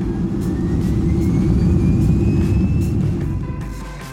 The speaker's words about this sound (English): Southwest 1014, runway 28, clear for takeoff. Clear for takeoff, enjoy Southwest 1014.